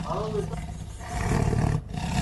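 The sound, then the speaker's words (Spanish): Tiger roaring: a deep, rough rumble that swells to its loudest in the middle and then cuts off, heard over constant background noise. “¿Qué es eso? ¡Guarda! ¡No! ¡Fuera, tigre malvado! ¡Fuera, tigre!”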